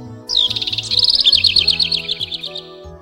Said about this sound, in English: Who's singing? Oh, it's the bird. A singing bird.